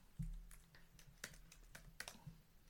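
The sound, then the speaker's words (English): Typing on a computer keyboard: many quiet, crisp key clicks in an irregular rhythm, with a few heavier taps standing out among them. “Hold on, let me type something up. I can't even spell capital right.”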